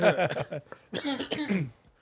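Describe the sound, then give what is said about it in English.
Wet, phlegmy coughing and throat clearing, blamed on a change in the weather: a few loud, rough bursts in two quick clusters, each dropping off into quiet. “There's a lot of phlegm going on in this podcast today. It was the weather change.”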